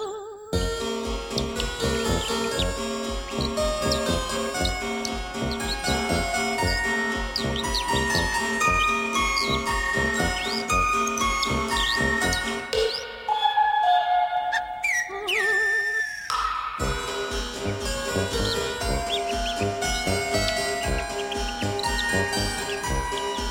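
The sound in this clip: Complex bird song fills the whole stretch with dense whistled phrases, trills and chirps layered over one another, briefly thinning near the middle before resuming just as busy.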